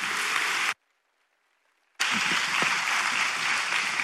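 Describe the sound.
A church audience at Calvary Chapel Knoxville applauds a guest speaker from Bangor, Maine: dense clapping cuts off abruptly into a second of silence, then resumes just as full and steady.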